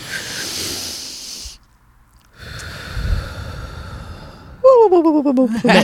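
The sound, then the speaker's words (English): A group breathing in and out together on a count: a long, breathy rush of air, a brief silence, then another drawn-out breath, after which a voice cuts in. “we're gonna breathe in and breathe out on three.”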